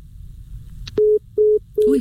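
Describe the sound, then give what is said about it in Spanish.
A telephone busy tone sounds after a call is cut off: three short, steady, mid-pitched beeps at an even rhythm, with a few faint clicks before them. “creo que nos se cortó. A ver si nos pueden restablecer eh, la llamada con ella”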